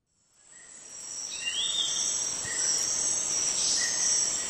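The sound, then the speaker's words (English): Rainforest ambience with insects: a steady, high-pitched insect drone fades in at the start and holds, with a few faint chirping calls scattered over it. “That's the sound of a rainforest recorded by a group of scientists in an effort to gauge the health of ecosystems.”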